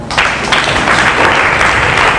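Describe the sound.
Applause from an audience at a prayer gathering in a Catholic retreat centre in Côte d'Ivoire, a dense, steady wash of clapping that stays loud and even from start to finish with no talk.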